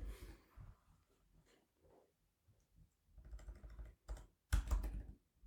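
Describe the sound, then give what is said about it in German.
Someone types on a computer keyboard, producing many quiet key clicks in irregular bursts with short gaps. A denser, louder flurry of keystrokes comes near the end. “Tippgeräusche.”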